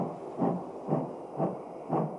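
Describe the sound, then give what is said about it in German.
A steam locomotive pulling a Moscow-to-Paris express out of a station chuffs in four even, rhythmic puffs about half a second apart, steady and moderately loud with no voices. “Um 20.53 Uhr verlässt der Moskau-Paris-Express fahrplanmäßig den Bahnhof Friedrichstraße.”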